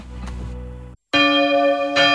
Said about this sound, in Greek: Δεν μπορώ άλλο με τις καμπάνες.